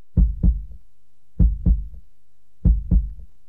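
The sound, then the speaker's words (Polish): A human heartbeat, that of a man in his forties or fifties, three clear low lub-dub double thumps at a slow, even pace, heard alone with silence between the beats. “Te lata odlicza bicie mojego serca.”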